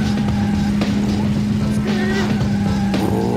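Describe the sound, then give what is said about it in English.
Car engines racing in a Nintendo 64 rally video game: a steady, loud, buzzing synthetic engine drone with shifting higher whines layered over it, continuous throughout. “Racing sound, so nothing crazy happens here.”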